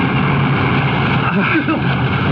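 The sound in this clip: A boat motor runs with a loud, constant drone that stays steady throughout, while people talk over it.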